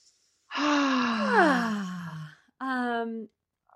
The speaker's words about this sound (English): Take a nice deep breath.